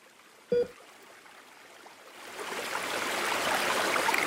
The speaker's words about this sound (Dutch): Dit is de Darling Rivier